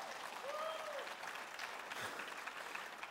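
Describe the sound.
Congregation applauding during a church service, a dense, steady wash of clapping throughout with a brief voice rising over it.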